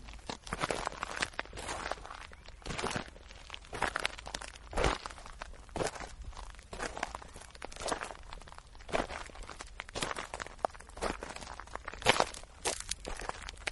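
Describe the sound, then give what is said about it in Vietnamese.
Heavy human footsteps in an underground tunnel behind a stone door, many crunching, gritty steps in an uneven, plodding rhythm, fairly loud and continuous with no talk over them. “Tiếng bước chân tuy ở xa, nhưng ghé tai qua cửa là nghe rõ một một, không lầm được, đúng là tiếng chân người đi, nghe rất nặng nề, như cả ngàn cân dậm xuống vậy.”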